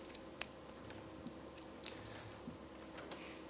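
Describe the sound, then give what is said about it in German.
Faint, sparse clicking from a computer keyboard, with a few scattered keystrokes standing out over a low, steady background hiss. “Sieht gerade nicht, was du tippst.”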